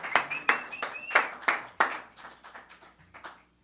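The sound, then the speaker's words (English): Audience applause for a band at a live show: scattered, sharp claps in a loose rhythm that gradually thin out and fade away toward the end. “give it up for the Irie Knights one more time.”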